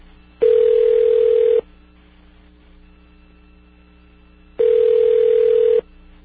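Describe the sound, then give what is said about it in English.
Ringback tone of a telephone line during a call transfer to a prison receptionist: two long, steady buzzing rings of about a second each, separated by a pause of roughly three seconds, over a constant low hum. “Enough of this. Let's dial 0. See if we can. Your call is being transferred to the receptionist.”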